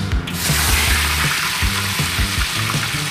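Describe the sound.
Mandarin fish sizzles as it goes into hot oil for frying, a loud, steady, dense hiss of crackling oil that runs throughout with no talking.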